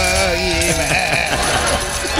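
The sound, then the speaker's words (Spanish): A human voice imitates a goat's bleat, a loud, tremulous, wavering nasal tone with shaking pitch, sounding over a dense, continuous background of other sound. “Tienes que decirlo, pero como un chivo. Y como un chivo.”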